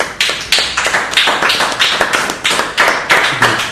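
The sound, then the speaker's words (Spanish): Hands clapping in a steady, brisk rhythm: many sharp, evenly spaced claps, each with a short fading tail, loud and alone without any talk. “Yo creo que podemos aplaudir todos, amigos.”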